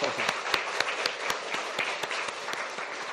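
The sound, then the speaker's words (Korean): A church audience claps in applause during a service, a dense and fairly faint patter of many hands with sharper individual claps standing out at a steady pace. “우리 서로 힘내자고 끝까지 완독하자고 서로 박수하겠습니다.”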